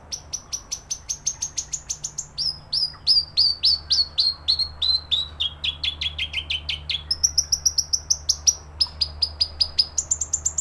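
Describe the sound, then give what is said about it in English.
A North Island robin (toutouwai) sings a long run of rapid, high, clear whistled notes in quick repeating phrases, one phrase gliding gradually lower, steady and bright over a quiet low background hum. “It's a North Island robin, or a tutupai”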